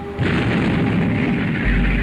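Naval gunfire during a sea battle between the Royal Navy and French ships: a heavy boom that starts abruptly and rolls on as a deep, sustained roar, with a second low thud near the end and no talk.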